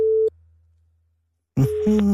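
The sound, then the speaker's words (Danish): A telephone busy signal: one short, steady mid-pitched beep, followed by a long stretch of near silence before other sound returns near the end. “Det er jo optaget. Det betyder, at der er nogen hjemme.”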